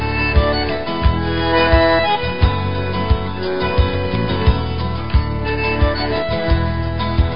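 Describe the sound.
A song written during a visit to Formosa plays over the radio, its sound muffled and trimmed at the top, carried by a steady beat of regular percussive hits beneath continuous layered instruments.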